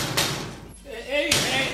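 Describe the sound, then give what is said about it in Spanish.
Knocks on a door come as two loud, dull thumps about a second apart. A voice is heard faintly between them. “Están llamando a la puerta, levántate, gordo.”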